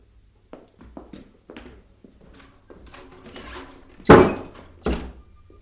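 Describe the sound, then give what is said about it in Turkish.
Shop doors being closed give two heavy wooden thuds near the end, the first louder. Softer knocks and shuffling movements come before them. “Kapıları kapat usta. Tamam tamam. Kapatırım.”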